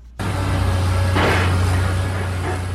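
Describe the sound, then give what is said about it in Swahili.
Construction machinery at the Sosimat site on the So Mouton construction site in Kinshasa sets in abruptly as a loud, steady engine rumble over a low hum, with a brief hissing surge partway through. “Wana bozali koyoka ezali maye mazali ko salema na site ya Sosimat esika ezali chantier ya So Mouton.”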